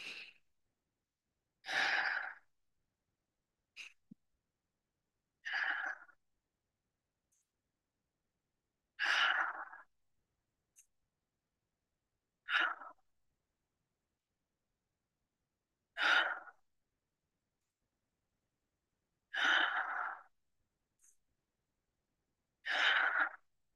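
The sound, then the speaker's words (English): Slow, guided breathing in and out at a steady count, heard as many soft breaths spaced evenly a few seconds apart, with silence between them and no talk. “We'll start breathing together in 3, 2, 1.”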